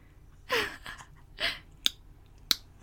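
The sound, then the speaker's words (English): Two sharp, bright finger snaps, each a single crisp click, come near the end, after two louder breathy puffs of air earlier on. The snaps stand alone with no talking over them. “That's my version of snapping.”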